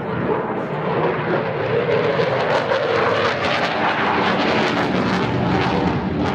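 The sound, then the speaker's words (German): A Eurofighter fighter jet roars at an aviation exhibition, loud enough to overload a radio reporter's microphone: a steady, dense, heavily distorted roar that holds at full loudness throughout, with no talk. “So klingt es, wenn die Lautstärke eines Kampfjets vom Typ Eurofighter das Mikrofon eines Radioreporters überfordert.”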